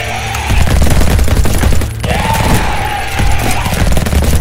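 Rifle gunfire sound effect from soldiers shooting at a huge beast: many sharp shots packed into a dense, continuous volley, loud throughout with a brief dip midway before the firing presses on.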